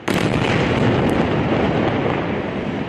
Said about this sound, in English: At one point, a 13-story building used by Hamas leadership was hit.